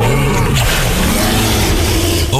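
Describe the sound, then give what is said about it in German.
Dinosaur roar from the life-size dinosaur models at Zoo Osnabrück, a loud, deep, rough growling rumble with wavering tone that holds for over two seconds. “Okay, das war jetzt aber kein Löwe. Papa, das sind doch die Dinos im Zoo Osnabrück.”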